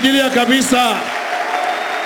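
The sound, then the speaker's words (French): An audience applauds during a church worship service. After a loud voice at the start, steady, dense clapping takes over and continues evenly to the end. “Nous allons l'acclamer très fort.”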